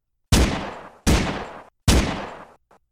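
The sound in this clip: Three loud gunshots from an old man's gun fired in an alley, each sharp blast trailing off in a long decay, evenly spaced, with no voices between them.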